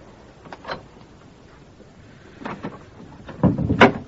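A door being opened in a cramped guardhouse: a few soft clunks and rattles spread across four seconds, the loudest cluster coming near the end, with no voices.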